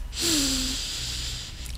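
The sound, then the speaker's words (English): A deep breath is drawn in during a guided breathing exercise: one long, airy inhale lasting over a second, with a brief voiced tone at its start. “Let's take a deep breath. Hano I loko.”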